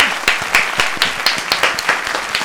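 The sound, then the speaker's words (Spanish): An audience applauds two presenters as a show opens, with loud, steady clapping in a regular, almost rhythmic beat of many claps and no voices over it. “Un aplauso para ellos, por favor.”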